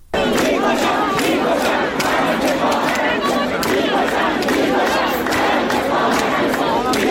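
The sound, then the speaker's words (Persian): Students at Ferdowsi University of Mashhad chanting protest slogans: loud massed voices shouting together in a steady rhythmic pattern that stays intense and unbroken from start to finish. “دانشگاه فردوسی مشهد، چند تا از این دانشگاه ها ما صدای شعارها رو داریم که براتون پخش میکنیم، از جمله دانشگاه فردوسی مشهد.”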